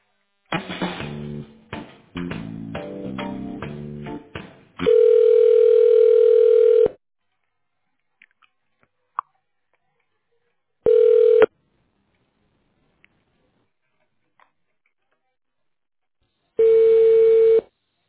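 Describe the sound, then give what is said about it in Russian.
Telephone line tones while a call is being connected: a burst of choppy, varied tones, then three steady beeps separated by long silent gaps. The first beep is about two seconds long, the others shorter. “Оставайтесь на линии. Соединяю вас.”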